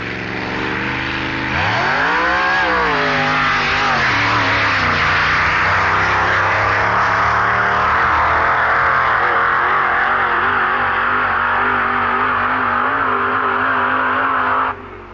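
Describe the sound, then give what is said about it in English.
A drag racing car launches down a quarter-mile strip on uneven tarmac at Blackbush. A loud engine roar climbs sharply in pitch, dips briefly, then holds a sustained, rising drone until it cuts off abruptly. “it raises itself on its springs and bounces hysterically off down the uneven Blackbush tarmac to record a fantastic 10.75, 144 mile per hour quarter mile”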